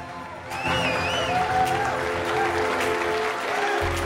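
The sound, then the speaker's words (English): Agents in a large control room break into applause. The clapping starts after a brief quiet moment and continues as dense, steady clatter, with voices audible through it. “They walk into the large control room, and all the other agents break out in applause.”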